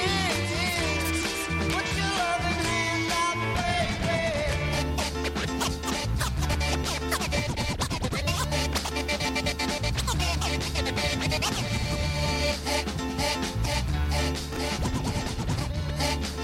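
DJ turntable scratching over a dense, driving beat: rapid, continuous back-and-forth scratches that stay loud and busy the whole way through, with no talk.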